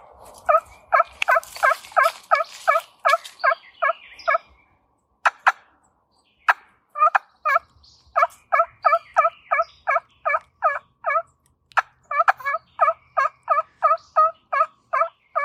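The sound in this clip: Yelps from a trumpet-style turkey call played up close, with a slightly goosey tone, come in quick rhythmic runs. After a brief pause broken by a few sharp clicks, more evenly spaced runs of yelps follow.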